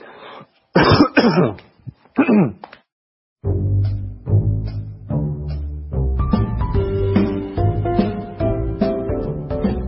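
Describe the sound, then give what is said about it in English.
Several rough throat-clearing coughs, close together and loud, break out in quick succession before a tonal musical passage with sustained chime-like notes takes over. “Sorry, I'm not sick. I have something in my throat.”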